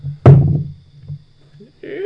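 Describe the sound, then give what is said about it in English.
A d20 die is rolled onto a table and lands with one solid thunk, followed by a couple of faint, soft rattles as it settles. A voice starts up right at the end. “Well, just an attack roll. And it's just an attack roll. So roll. So D20. First, just roll to see if it hits.”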